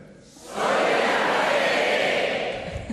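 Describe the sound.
A large live audience in a theatre's stalls shouts a phrase together in unison, a loud, dense roar of many voices that swells up after half a second and holds steady before easing slightly at the end.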